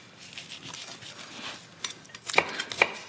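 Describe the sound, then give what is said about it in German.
A knife chopping food on a board during cooking beside a pan: faint, scattered soft taps that turn into a few sharper, louder cuts near the end, with no voices. “Komm, ich hack die hier nochmal kurz fertig.”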